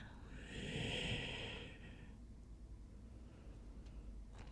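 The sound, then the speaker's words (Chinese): A slow exhale during a yoga breathing exercise: one soft, long, airy breath that swells and fades over about two seconds, followed by faint quiet. “吐气，落下；吸气，肚脐升起；吐气，肚脐落下。”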